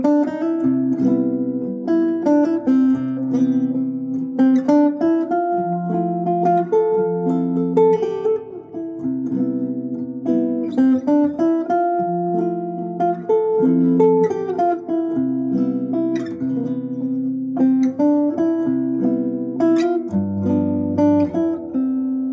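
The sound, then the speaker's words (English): A chord progression played as jazz seventh chords, sustained harmonies changing every second or so in a steady sequence, clear and alone, with a lower, fuller chord near the end. “So just by turning these into seventh chords, it's going to start sounding more like jazz. So it sounds like this.”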